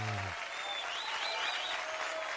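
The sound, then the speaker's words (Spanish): Applause from a group, a thick, continuous patter of many clapping hands at moderate level, sustained evenly from start to finish without a break. “el aplauso para ti, por supuesto”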